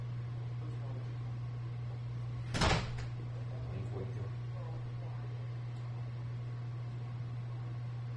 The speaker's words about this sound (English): Shut the door!